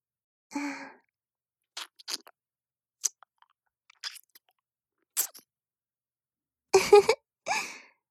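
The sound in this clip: Wet mouth sounds of someone chewing a sweet, soft, melting food come as scattered clicks and smacks in short bursts separated by quiet gaps, opening with a soft breathy sigh.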